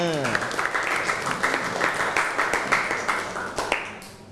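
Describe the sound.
Students applauding in a classroom: dense, continuous clapping with many overlapping hand claps, moderately loud and even, with a voice briefly heard at the start before fading into the claps.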